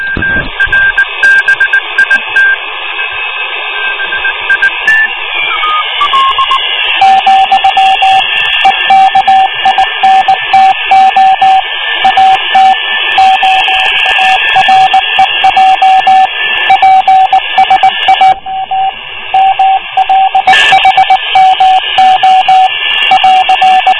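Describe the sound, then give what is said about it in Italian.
Morse code signal beeping over radio static: a keyed tone pulses in short, regular dashes and dots, running steadily beneath loud, continuous hiss and crackling interference with other steady tones. “Eh già, c'è del codice Morse.”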